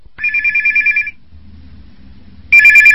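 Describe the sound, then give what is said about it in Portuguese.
A telephone ringing with a loud, high electronic trill. A long warbling ring is followed by a pause, then the next ring begins and continues to the end, with no voices. “Assim que o homem foi embora, Pedro ligou para Valdemar.”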